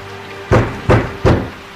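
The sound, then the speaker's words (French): Three violent knocks on a door, loud heavy thuds that come in quick, fairly even succession, with no voices. “lorsque trois coups furent frappés violemment à la porte.”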